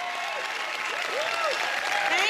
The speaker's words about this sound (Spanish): Cada uno atrae aplausos y una tormenta de relámpagos de flashes de cámaras de la multitud.